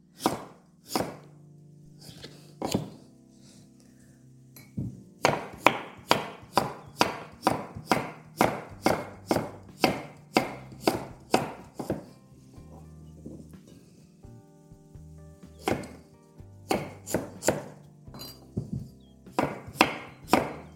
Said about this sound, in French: Nous allons les découper en morceaux. On va faire des rondelles qui font à peu près 1 cm. Comme ça, on va pouvoir les écraser facilement à la fourchette.